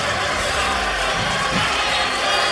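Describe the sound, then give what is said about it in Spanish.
Studio audience applause and cheering on a TV show, a continuous mass of clapping and crowd noise at moderate level with no breaks. “Esto es Vidas Extremas. Un fuerte aplauso.”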